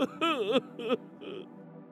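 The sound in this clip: A man cries, sobbing and whimpering in a few short, wavering bursts of voice that grow fainter toward the end.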